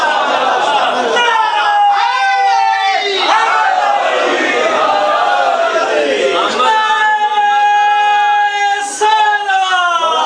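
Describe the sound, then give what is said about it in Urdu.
A large crowd chants the Nara-e-Haidari slogan in praise of Ali ibn Abi Talib. Many voices shout together in loud, sustained waves that swell and overlap without a break. “نعرہ حیدری کی صداؤں میں اس بات کی طرف اشارہ کر رہے ہیں کہ ہم جان رہے ہیں کہ علی ابن ابی طالب تعداد کو بھی جانتا ہے”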